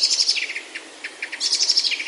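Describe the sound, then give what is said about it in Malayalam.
One or two sparrows singing on a neem branch in the morning: high, rapid chirps and twittering trills that run on without a break, bright and fairly loud, with no voices. “ഈ നനുത്ത പ്രഭാതത്തിൽ ആരാണ് ഇത്ര മധുരമായി പാടുന്നത്? പാട്ടിനോളം വലുപ്പമില്ലാത്ത ഇത്തിരി പോന്ന ഒന്ന് രണ്ട് കുരുവികളുടേതാണ് മധുരമുള്ള സംഗീതം.”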